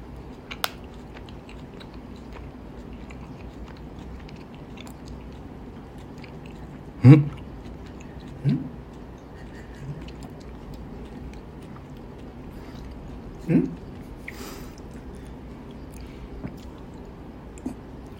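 Chewing on gummy candy: a few soft, squishy bites and wet mouth sounds stand out briefly against a faint, steady background hiss, with no talking.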